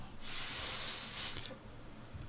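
A steady, breathy hiss of someone blowing into a breathalyzer after using breath freshener spray lasts just over a second, then fades to a quieter background.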